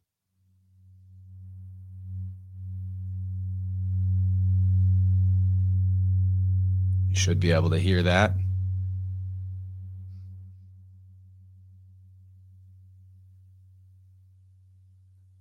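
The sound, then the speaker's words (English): A pure, tuning-fork-like frequency tone plays from a mixer's sonic slider as a steady low hum with a fainter overtone. It swells in, and a voice speaks briefly over it midway before the tone fades slowly away. “So I'm going to hit you guys with the sonic slider frequency off my mixer here. I recorded it myself, so it's even though it's recording, this is organic tuning fork tunage right here.”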